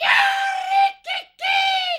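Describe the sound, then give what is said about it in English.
A gannet's ear-splitting, harsh scream, harmonic and shrill, in three loud bursts: a long first cry, a short second one and a long third one. “the bird opened its long, sharp beak and gave voice to an ear-splitting scream.”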